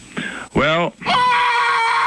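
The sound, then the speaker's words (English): A man yelling: a few loud, strained vocal bursts with an arching pitch, the last one long and held. “How come he yelled like that?”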